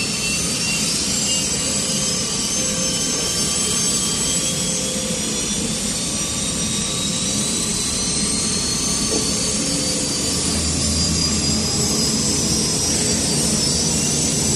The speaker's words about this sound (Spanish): Luke enciende motores